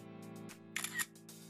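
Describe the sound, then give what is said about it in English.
Camera shutter clicks as someone takes a selfie, with a few quick clicks in a brief cluster over a steady low hum. “And as proof, I'm taking a selfie.”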